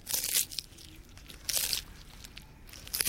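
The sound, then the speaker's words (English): An Aldabra tortoise eats chicory: three fairly faint crunchy bites about a second apart, with soft rustling and tearing between them. “That was the sound of an Aldabra tortoise eating chicory.”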